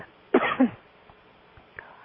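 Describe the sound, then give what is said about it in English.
A person coughs once, a short harsh burst with two quick pulses, followed by quiet with only faint small noises. “What it said was, stop coughing, but I can't seem to do that. So, excuse me.”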